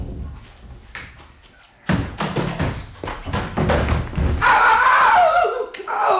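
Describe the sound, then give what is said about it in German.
Someone falls while climbing onto a wardrobe: a sudden heavy thud breaks in, followed by several bumps, knocks and clattering that continue as a loud, busy jumble to the end. “Ja, runtergefallen bist. Nein. Weil du gerade am Aufklettern warst.”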